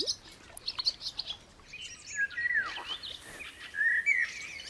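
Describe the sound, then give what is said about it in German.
Swallows call near their nest while foraging for their hungry brood, giving many high, thin chirps and twittering notes in scattered bursts at a fairly soft level. “Die Schwalben können hier in der Nähe ihrer hungrigen Brut auf Nahrungssuche gehen.”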